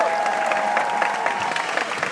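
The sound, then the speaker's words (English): Audience applause for the concertmaster as she walks out before an orchestra concert: a dense, loud, continuous clapping with a faint crowd murmur under it. “Bring out the concertmaster. Give her a round of applause.”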